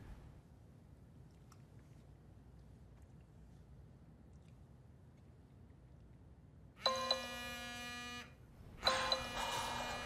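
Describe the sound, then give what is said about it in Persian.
A phone rings after a quiet stretch, with two loud electronic bursts of a bright, harmonic ringtone, each lasting about a second with a short gap between them. “نمیدونم چرا زنگ میخوره. الان خاموشش میکنم.”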